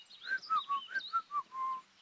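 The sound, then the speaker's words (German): A person whistles while upside down in a handstand, a quick run of six short, bright melodic notes that ends on a longer held note, clear and alone with no talking. “Ja, mal sehen, ob man so auch pfeifen kann.”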